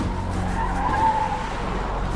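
Tires skid and squeal as a BMW swerves through slower traffic, a loud, continuous rushing screech that stays steady throughout.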